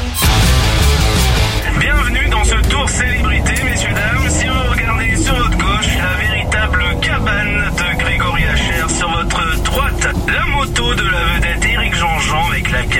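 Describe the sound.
Car driving around bends, its engine a loud, steady drone that continues under voices talking throughout.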